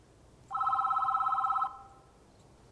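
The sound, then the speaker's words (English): A telephone rings with a single warbling, high-pitched burst of about a second, then falls quiet before the next ring just begins at the end. “She haughtily turns away from him and answers the phone.”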